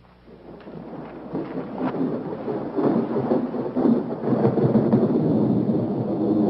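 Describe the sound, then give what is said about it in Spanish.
An approaching thunderstorm: rolling thunder rumbles over steady rain, the wash of sound swelling from quiet to loud and staying dense and heavy through the end. “Se avecina una tormenta.”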